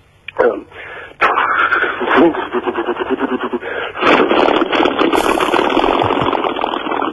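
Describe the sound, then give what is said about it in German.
A voice imitates an old American Plymouth Barracuda with a large-displacement V8 starting: a short burst, then a loud, rough, sputtering rumble that pulses unevenly for several seconds. “Das ist ein alter amerikanischer Wagen mit einem großvolumigen V8-Motor. Und wenn man den startet, hört sich das zum Beispiel dann so an.”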